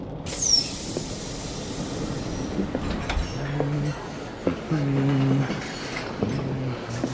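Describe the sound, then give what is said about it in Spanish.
A long passenger train in motion, with a steady rolling rumble broken by occasional high wheel squeals and brief tonal whines. “Pero será largo este tren.”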